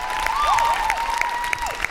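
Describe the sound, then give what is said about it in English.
An audience at a nurses' union rally gives a round of applause for a speaker, with steady clapping and a few sharper claps standing out over two seconds. “Everybody give Kathy a round of applause.”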